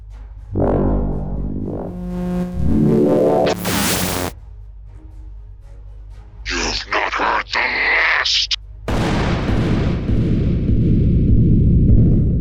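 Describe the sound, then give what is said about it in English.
Loud explosions as the enemy is blown up, with heavy booming bursts, a sweeping tone before them, and a long roaring rumble at the end. “Commander? Blow them up.”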